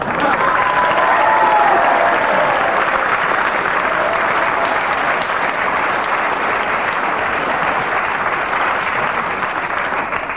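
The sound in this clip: Sustained audience applause after a comedy song: a dense, loud wash of clapping that holds steady for the whole stretch, with some faint crowd voices mixed in near the start.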